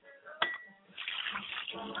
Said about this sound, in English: Pour libations to the east, and I say, Ashe. pour libations to the West, and I say Ashe.